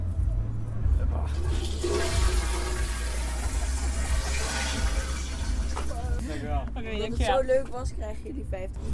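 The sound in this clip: A toilet flushed by pressing its button, water rushing and gurgling steadily for several seconds, with people talking over the tail end.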